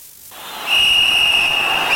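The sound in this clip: A referee's final whistle ending a football match: a single shrill, sustained tone holds steady for over a second, following a quieter, noisy opening.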